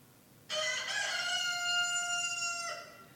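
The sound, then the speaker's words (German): A rooster crows once in a single long, loud call. The tone is bright and strongly harmonic and holds steady for about two seconds before breaking off. No voices are heard. “ehe dieser Hahn kräht”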